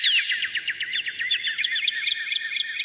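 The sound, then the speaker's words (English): Recorded bird song playing: dense, high-pitched chirps and squawks chatter continuously in quick overlapping bursts, with no talk over them. “Can you turn the birds down?”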